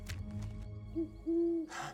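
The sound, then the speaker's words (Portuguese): Two soft, low owl hoots in a remote wild spot during birdwatching. A short hoot comes first, then a longer sustained one, both faint against quiet background noise. “Você ouviu? A coruja está por perto.”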